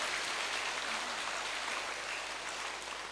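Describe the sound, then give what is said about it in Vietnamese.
Applause at a Buddhist pagoda award ceremony: a soft, dense wash of clapping continues throughout and eases slightly at the end. “Hãy dành một tràng vỗ tay thật lớn để chào đón tất cả.”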